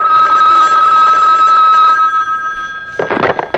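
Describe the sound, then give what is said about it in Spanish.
A telephone bell rings steadily and loudly for nearly three seconds, its bright tone fading out before a short burst of other sound at the end. “Un momento, yo contesto. Es que estoy esperando una llamada.”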